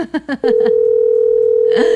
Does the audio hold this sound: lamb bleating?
no